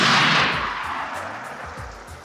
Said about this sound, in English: this tank was on a road, and the landmines were clearly laid out on the road. You could see them. And the guy just drove right over them and...